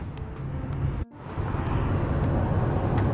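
A car drives along a highway, giving a steady, loud low rumble of engine and road noise that briefly drops out for a moment before resuming at an even level.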